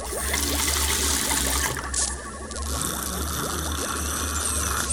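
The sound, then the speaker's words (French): Water pours in a steady, hissing trickle that runs unbroken for about five seconds, dipping briefly partway through. “J'ai soif! Vite, de l'eau!”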